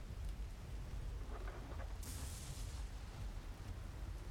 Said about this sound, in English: I was hoping this rain would let up in the morning, but my gods.